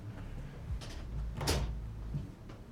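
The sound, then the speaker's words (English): A door opens into a room, heard as a few faint clunks and a soft rustle over a low steady hum, with no voices. “The man opens a door to a room.”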